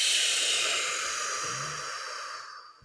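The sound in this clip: A long, slow exhale during a gentle grounding breathing exercise, heard alone as a steady breathy hiss that gradually fades out.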